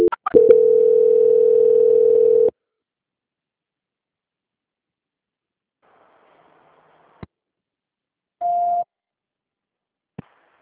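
Telephone tones during a call transfer: a few clicks, a steady mid-pitched tone lasting about two seconds, then near silence broken by sparse clicks and one short beep.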